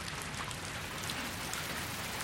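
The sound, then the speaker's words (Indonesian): Heavy rain pours down and washes toward a drain, a dense, steady hiss of countless drops that stays even and unbroken throughout, with no voices. “Hujan turun semakin deras.”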